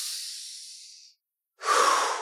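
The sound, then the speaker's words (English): A deep cleansing breath, heard as a long airy rush of air that fades out, then a short silence, then a strong, hissing breath that starts suddenly and holds. “taking one more nice, big, deep cleansing breath”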